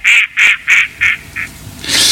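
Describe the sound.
A short jingle of duck quacks: five loud nasal quacks in quick succession, with the last one fainter, followed by a brief hiss.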